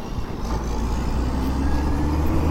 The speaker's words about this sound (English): I'm going to let this cement mixer go by because he's bigger than I am